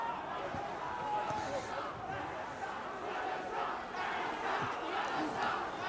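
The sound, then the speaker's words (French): Faint, steady crowd chanting of slogans, built as a sound-design ambience of Egypt, with many voices merging into a dense, continuous roar. “D'abord c'est un slogan, enfin une ambiance slogan. On a une nomenclature pour nous y retrouver dans nos sons. Et donc là tu as appelé ça ambiance Égypte slogan.”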